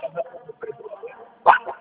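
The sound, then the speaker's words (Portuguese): A dog barks in a few short yips, with one sharper, louder bark near the end, mixed with talking. “Só mandei um WhatsApp para soltar aquele cachorro aí.”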